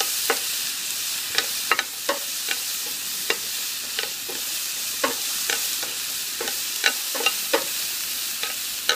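Onions sizzle as they fry in a pan on a gas cooker over medium heat. A steady, bright hiss runs throughout, punctuated by many sharp clicks and taps from stirring, with no talking.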